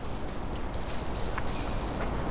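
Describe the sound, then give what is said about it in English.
Horse on a snowy trail, its hooves giving several soft clopping steps under a steady broad hiss, with no talking. “steps up toward the horse and carefully examines its reins”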